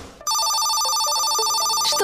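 A telephone rings for an incoming call: a bright electronic ringtone with a repeating melodic pattern cuts in after a brief moment of near quiet and continues loudly to the end.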